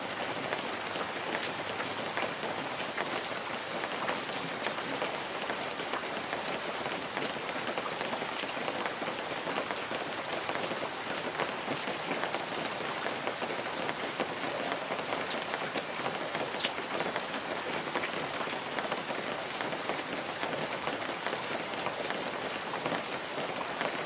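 Steady drizzling rain falls at twilight in a forest, a dense, even hiss of fine drops pattering on surfaces without pause or change in loudness.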